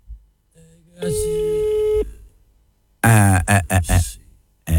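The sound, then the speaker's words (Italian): A steady telephone line tone after dialing a number sounds for about a second, followed by a short pause and then a voice speaking. “Mentre faccio il numero di telefono, ok?”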